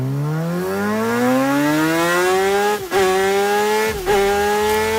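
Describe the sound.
A MotoGP racing motorcycle engine at high speed gives a loud, continuous high-revving whine that climbs steadily in pitch, broken by two brief dips before it rises again.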